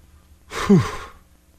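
A person wheezes once: a short, breathy exhale with a low voiced rasp in the middle that quickly fades, heard alone.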